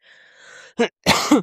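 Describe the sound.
Someone coughs and clears their throat: a faint breath, then a short sharp cough, then a longer rasping throat-clear, with brief silences between them.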